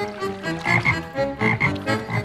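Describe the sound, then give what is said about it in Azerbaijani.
A bulging-eyed frog from a children's tale croaks in a rapid rhythmic series, each croak a resonant, buzzy pulse repeating in bouncing groups with no talk over it. “Artıq təslim olmağa qərar vermişdilər ki, dombagöz qurbağa onların köməyinə çatdı.”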